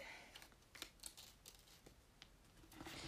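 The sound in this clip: Crisp paper crinkling as a small paper slip is folded before anything is written on it: a few soft creases and rustles, faint and uneven, with no talking.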